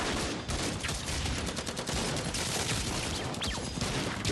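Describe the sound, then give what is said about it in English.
A volley of gunfire from many weapons opening fire together forms a dense, unbroken crackle of overlapping shots. It stays loud and steady for the whole few seconds with no clear pause. “Disciples of Jimmy, draw your weapons! Everyone, open fire.”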